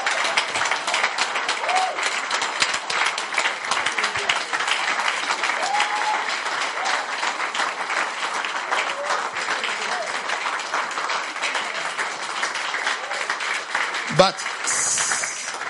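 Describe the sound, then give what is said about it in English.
A church audience claps and applauds loudly and continuously, with scattered voices and cheers mixed into the sustained clatter. “But you normally don't clap like this.”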